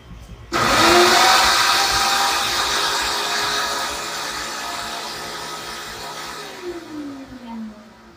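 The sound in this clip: A kitchen blender crushes ingredients, kicking in abruptly after a brief quiet moment into a loud, steady whirring roar; the motor's pitch drops toward the end.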